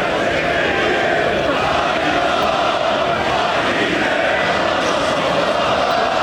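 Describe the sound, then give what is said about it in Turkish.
A dense, steady roar of Galatasaray football fans in Erzurum celebrating the club's 26th championship, a fourth in a row, with continuous shouting and crowd noise throughout. “Sarı kırmızılılar üst üste dördüncü, toplamda ise 26. şampiyonluğunu ilan edince tüm yurtta olduğu gibi Dadaşlar Diyarı Erzurum'da da taraftarlar şampiyonluğu coşkuyla kutladı.”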